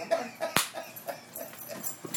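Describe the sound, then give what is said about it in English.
A dog's half-formed, almost-bark vocalization: a few soft whimpering yips and one sharper, louder burst near the middle, all fairly faint. “That was almost a bark.”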